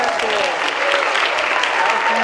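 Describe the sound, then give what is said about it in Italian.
Applause greets a runner arriving on the beach at Fiumaretta after a 130-kilometre run from Parma. Dense, steady clapping fills the whole stretch, with voices mixed in. “Questo, questo è l'applauso che ti ha accolto in spiaggia dopo 130 chilometri di corsa da Parma sino a Fiumaretta”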